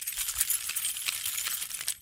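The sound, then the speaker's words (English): Keys being picked up give a bright, continuous metallic jangle that lasts about two seconds with no pause, fairly quiet and with no talk over it. “Hold on, let me get my keys.”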